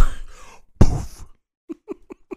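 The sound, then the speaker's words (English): Coughing: one loud, harsh burst, then a few short, quieter coughs in quick succession, following a brief stretch of low voice. “Don't be coughing over here”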